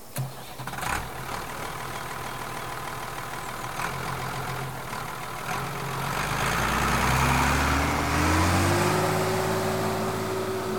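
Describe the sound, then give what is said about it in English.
A bulldozer engine runs with a steady, rough rumble, then grows louder as its pitch climbs in a gradual rev toward the end. “Now get on that bulldozer and tear up that tree by the roots.”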